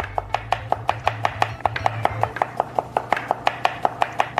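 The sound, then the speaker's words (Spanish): Rapid knife chopping of food into thin slices during a Korean cooking lesson: many crisp, evenly spaced strokes on a cutting board in a steady fast rhythm, with no talk. “Intenta cortar lo más fino posible. Ya fallé.”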